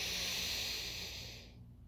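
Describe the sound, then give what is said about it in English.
A single deep breath in, a smooth airy rush that holds for over a second and then tapers off quietly. “please take another deep breath in.”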